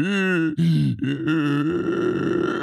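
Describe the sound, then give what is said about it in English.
A voice imitates being out of breath, mocking an asthmatic man struggling to keep up in a physical challenge: strained, voiced grunting gasps come in a few quick bursts, the last drawn out, loud and alone. “Why are you out of breath, bro? Can't you keep up? Come on. This is what you sound like.”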